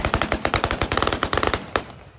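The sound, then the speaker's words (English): Celebratory gunfire in the central square of Damascus, with many loud shots fired in rapid, rattling bursts that overlap one another before trailing off. “There was celebratory gunfire here at the central Umaydia Square in Damascus.”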